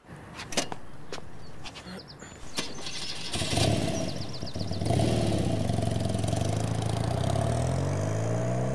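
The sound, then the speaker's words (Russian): A moped engine starts after a few sharp clicks and knocks, then settles into a buzzing idle before revving up into a louder, sustained drone as it rides off. “Тот садится на мопед срочно! И едет к нему.”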